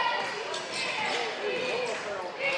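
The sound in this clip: A basketball is dribbled during a game between Holly Pond and Good Hope. Bounces sound under continuous crowd noise and voices.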